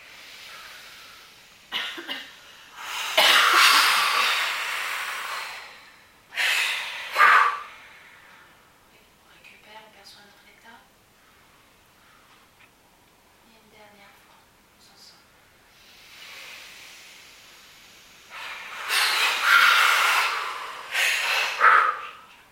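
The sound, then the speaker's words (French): Deep breaths drawn in during a guided relaxation breathing exercise: a few airy, hissing inhalations in separate bursts, with quiet pauses and faint talk between them. “une deuxième fois, on inspire”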